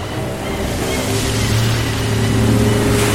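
A boat speeds over the water toward a city, its low engine hum rising over a constant rush of waves and growing slightly louder as it goes.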